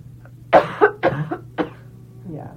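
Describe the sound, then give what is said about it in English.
Throat clearing and coughing from a person: a few short, rough coughs and throat-clearing bursts in quick succession, then a fainter one after a pause. “Got to come out, We're both clearing our throat chakras.”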